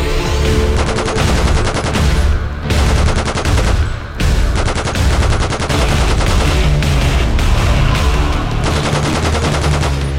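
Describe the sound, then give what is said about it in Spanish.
Gunfire from an assault rifle shooting at monsters in a settlement, a loud, dense rapid rattle of automatic fire sustained throughout, with a couple of brief breaks between bursts. “Apuntó a uno de los enemigos más cercanos, observándolo un momento. Hizo una respiración profunda, quitó el seguro y empezó a disparar.”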